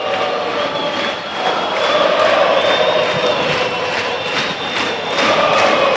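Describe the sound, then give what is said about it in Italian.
Continuous roar of a home stadium crowd urging on Parma during a football match against Bologna, a dense, sustained wash of many voices holding a steady, loud level throughout. “Sentite il pubblico di casa a incitare i crociati.”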